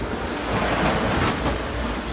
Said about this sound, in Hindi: एक दिन आकाश में काले काले बादल छा गए, मूसलाधार बरसात होने लगी।